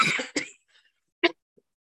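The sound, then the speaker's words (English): A person recovering from COVID coughs a few times: short, sharp bursts, the first ones close together, then a pause before a final pair and a faint trailing sound. “she needs a little coughing break there”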